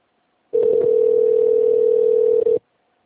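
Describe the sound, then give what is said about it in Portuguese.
A telephone line tone sounds while a call is being transferred: one steady, unwavering mid-pitched tone lasting about two seconds, briefly dipping just before it cuts off, with no voices. “Aguarde que vou transferir sua ligação para um de nossos atendentes.”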